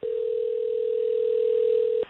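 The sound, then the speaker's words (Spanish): A telephone tone sounds as a call is being placed. It is one unbroken, steady mid-pitched note that holds for about two seconds and then cuts off abruptly. “Ok, buen gancho para una clavada telefónica. Llamando a Tania, la esposa de Carlos.”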